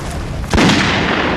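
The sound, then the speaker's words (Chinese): A single sharp gunshot from shooting at a target cracks out suddenly, then leaves a broad, rumbling decay that lingers to the end. “准备射击”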